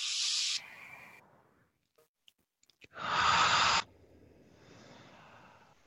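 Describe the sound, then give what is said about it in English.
Deep breathing: an airy breath at the start, a short near-silent pause with a few faint clicks, then a fuller, louder breath lasting about a second, followed by quieter breathy air; no talking. “just take a deep breath right here with us.”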